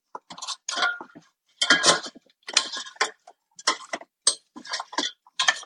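A cooking basket holding tortillas and cheese is pulled out and handled, making many sharp clattering, clinking bursts with short gaps between them. The sounds are moderately loud, and no one speaks.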